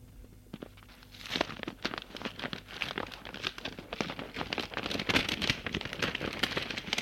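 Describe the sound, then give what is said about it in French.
Soft crinkling and tearing of a self-adhesive paper envelope being opened gently, many small crackling rustles that start after the first second and continue steadily and fairly quietly. “Allez, j'ouvre et on verra bien. Elle ouvre délicatement une enveloppe.”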